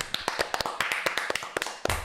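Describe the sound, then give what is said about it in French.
A small group of people in a studio applauds, with many sharp, distinct hand claps in an uneven, brisk pattern and no steady beat. “En tous les cas, comme si tu étais sur scène, on va t'applaudir, Sophie.”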